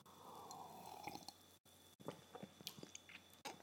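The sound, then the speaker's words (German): Faint mouth sounds of someone sipping coffee: a few soft wet slurps and swallowing clicks, scattered and irregular, with brief quiet gaps between them. “Warte mal, ich trinke mal noch einen Schluck Kaffee.”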